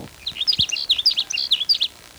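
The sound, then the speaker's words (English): A sage sparrow sings a quick run of high, thin chirping notes that tumble together in a busy two-second phrase, clear against quiet surroundings. “There's a sage sparrow that's singing near where the blackbird sparrow is.”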